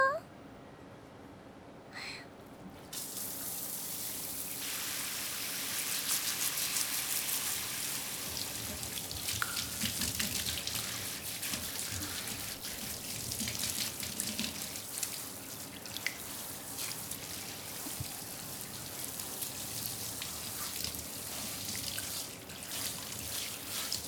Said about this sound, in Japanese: また髪流しますよ。